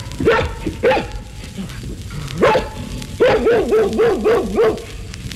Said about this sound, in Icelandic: Fugl dagsins var hundur.